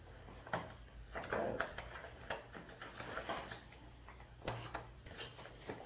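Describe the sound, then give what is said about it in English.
A timer ticks with a run of faint, quiet clicks, loosely spaced, during an attention and inhibition test. “Oh, I need this. The timer again.”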